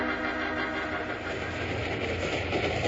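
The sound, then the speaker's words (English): Train engine and rail cars rumble in a steady, continuous low roar as the train slows while climbing a grade, with no talk over it. “So when the train began to near Broken Wheel Grade, he called for the next move.”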